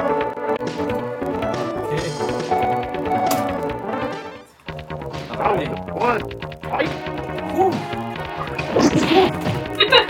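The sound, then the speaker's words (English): Street Fighter fight between Ryu and Chun-Li on the Super Nintendo: many punchy smacks, crashes and swishes of blows over tonal game music, with a brief lull near the middle before the hits resume. “We're going to play a little Super Nintendo. We're going to have Ryu vs. Chun-Li and see how it goes.”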